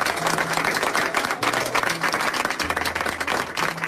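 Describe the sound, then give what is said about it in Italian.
A crowd applauds during a speech by an Armenian politician at an election-time event, dense continuous clapping with a few louder surges across the stretch. “Ecco, un applauso che accompagna il discorso dunque di un personaggio politico noto allo scenario armeno”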